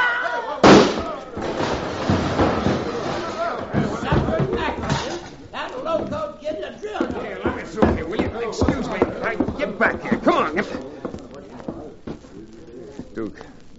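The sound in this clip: A single sharp gunshot cracks out near the start of a Western radio drama scene, fired during a quarrel over a card game, followed by agitated male voices talking.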